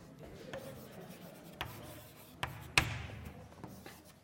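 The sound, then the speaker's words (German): Faint, scratchy strokes of a zero being written on a board, with soft rubbing marks and a few sharper taps spread through a quiet stretch. “Ich schreibe die 0 links, 0 links hin.”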